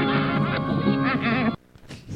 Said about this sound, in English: sounded like a duck, I guess